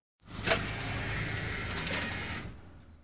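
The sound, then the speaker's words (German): A ticket machine prints a ticket: a sharp click, then a steady mechanical whirring buzz lasting about two seconds before it stops. “Dann druckt der Automat meine Fahrkarte aus.”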